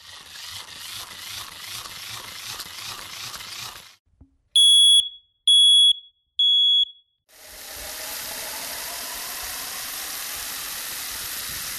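A smoke detector alarm gives three loud, high, piercing beeps in a row, set between stretches of steady rushing noise before and after.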